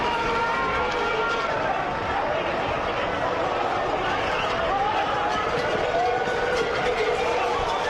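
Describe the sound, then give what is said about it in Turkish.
Thousands of people run through the streets from bulls released at the opening of the Pamplona festival, a dense, steady roar of footfalls and crowd noise that stays loud and unbroken throughout. “Festival başladı. Öfkeli boğalar serbest bırakıldı. Binlerce kişi sokaklarda koşmaya başladı.”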